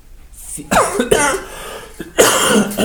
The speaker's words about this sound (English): Man, cough is just hanging on.